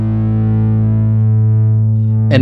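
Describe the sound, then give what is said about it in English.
A guitar played through a distortion pedal holds one thick, buzzing chord that rings loud and sustained while its bright upper overtones slowly fade, then a new pick attack strikes right at the end. “Try it with the distortion pedal.”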